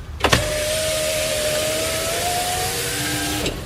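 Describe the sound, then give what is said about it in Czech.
An electric car window being lowered: a single steady motor whine lasting about three seconds, with a faint rise in pitch near the end, set off by a soft click at the start and a thud at the finish. “se sklápí okýnko v autě”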